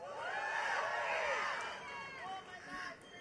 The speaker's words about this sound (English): I'm glad that you guys cheered, because most of my speech is going to be pretty sad